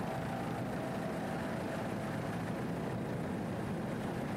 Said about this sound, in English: As we get a little closer, we can tell you that it's Merck Cruiser powered, 2,500 horsepower Merck Cruiser inboards.